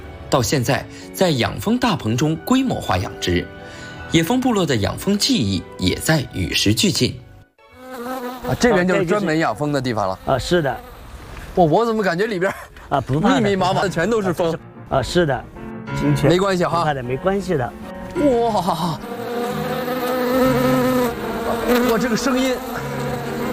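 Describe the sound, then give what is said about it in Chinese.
Wasps buzz in a wasp-breeding greenhouse, a dense, steady droning hum under people talking, with the buzzing growing more prominent toward the end. “到处都是蜂。 这个声音还是感觉 让我有点紧张。”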